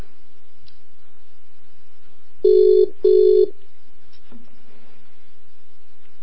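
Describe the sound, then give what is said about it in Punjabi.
Ringback tone of a mobile phone call going unanswered: two short, even electronic ring bursts in quick succession over a steady low hum, then a faint click. “ਆ ਲਓ ਮੈਂ ਤੁਹਾਨੂੰ ਕਾਲ ਕਰ ਦਿੱਤੀ।”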